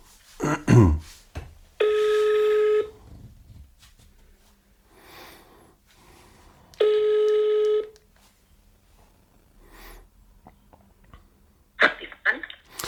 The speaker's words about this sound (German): Warte mal, ich rufe mal Mama an. Moment. Mal sehen, ob sie da ist. Ich mach mal laut.